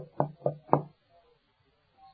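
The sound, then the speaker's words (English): Three firm knocks on a door, evenly spaced and dull in tone, followed by near silence with a faint trailing bump. “So He went to heart doors and He began knocking.”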